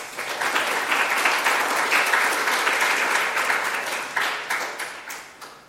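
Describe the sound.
Audience applause welcomes a speaker at an evening talk on Indonesia's forests: steady, dense clapping from many hands that swells once more near the end before tapering off.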